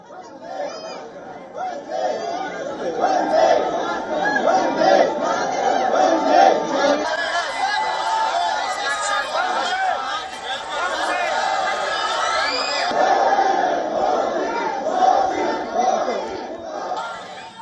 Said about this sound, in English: PM Modi also met members of the Indian diaspora. He interacted with the Indian community in Tashkent, who gave him a warm welcome.